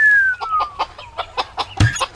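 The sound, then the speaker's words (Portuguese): Chickens kept in a backyard cage cluck in a quick run of many short, choppy clucks, a busy, lively clatter with no talking. “Galinhas! Desde quando você cria galinhas?”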